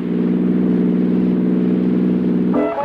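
Car engine running on Atlantic Imperial gasoline, a loud, steady low-pitched drone with a strong buzzing harmonic hum that changes tone just before the end.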